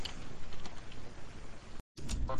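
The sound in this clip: Rapid, continuous clatter of typing as a host name is entered on a computer keyboard, keys pattering steadily before a brief silent pause and a final burst.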